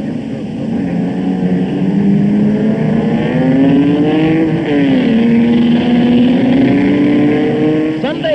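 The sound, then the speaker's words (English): Racing car engines roar at the W.D. and H.O. Wills Trophy motor race meeting at Croft Autodrome in 1967. A loud, sustained drone climbs steadily in pitch, dips briefly midway, then rises again. “August sees the Northeast's greatest murder race of the year, the W.D. and H.O. Wills Trophy Meeting at Croft Autodrome.”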